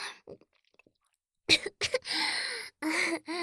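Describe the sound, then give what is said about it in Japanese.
Choking coughs and gasping breaths from a person sputtering after liquid ran into the mouth and nose. A few faint clicks come first, then several harsh, breathy bursts close together. “ちょっとむせて呼吸が苦しくなっちゃったけど”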